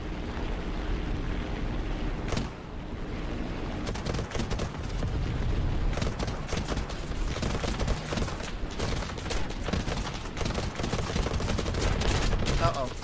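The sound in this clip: Rapid gunfire rattles through an aerial combat video game, with many dense crackling bursts over a constant loud rumble and one sharp, louder crack early on.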